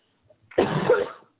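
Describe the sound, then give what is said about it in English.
A single harsh, rough cough from a person who has trouble breathing, a short loud burst standing alone after a moment of near silence. “I can't even breathe or talk for more than 10 minutes at a time before coughing.”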